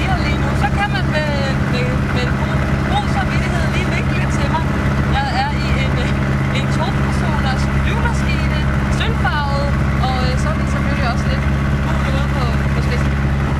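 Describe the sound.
Steady low engine drone of an aircraft in flight, heard over a phone call from the plane. The droning hum runs unbroken throughout, with a voice talking on top of it.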